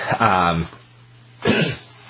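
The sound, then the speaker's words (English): A cough or throat-clearing from a person suffering from allergies: two short rough bursts with a quiet pause between them, the first voiced and drawn out, the second sharper and brief. “I'm sorry. So I'm having a... I keep coughing, and I apologize.”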